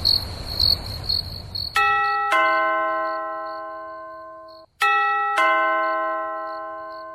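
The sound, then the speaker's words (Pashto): A doorbell rings at night, giving two ding-dong chimes with bright, ringing tones that fade slowly. Crickets chirp steadily at the start and continue faintly under the first chime. “د دروازې زنګ وواهل شو ته ورته وګوره چې څوک دي”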